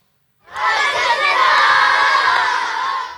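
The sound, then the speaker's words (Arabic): A loud group of children's voices rises together in song at a school in Gaza, a dense, sustained chorus that starts suddenly after a brief silence and carries on without a break. “يغنون لغزة التي تعني لهم كل شيء.”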